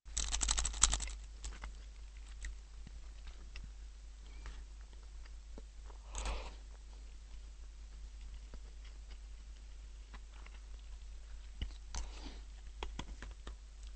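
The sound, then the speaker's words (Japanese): Faint eating of miso-flavoured fried rice sprinkled with shichimi chili pepper: soft mouth sounds and scattered light clicks run throughout, with a few brief louder bursts and no talking. “でやや味噌味のチャーハンに七味唐辛子って合うんじゃないかということで、まあ、本には書いてないんですけど、ちょっと七味唐辛子かけつつ食べてみようと思います。”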